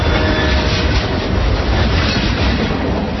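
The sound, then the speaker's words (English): A CSX freight train rolling along the tracks makes a loud, steady rumbling roar. The noise runs continuously with no breaks. “Yep, that's the sound of a CSX train doing its part to move the economy forward.”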